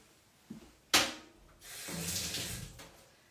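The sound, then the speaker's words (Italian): Tap water runs while hands are washed after touching an egg during cooking. A couple of sharp knocks come first, then a soft hiss of flowing water lasts about a second before it stops. “Scusate, questo vizio ogni volta che mi devo lavare le mani, ogni volta che tocco un uovo, giustamente.”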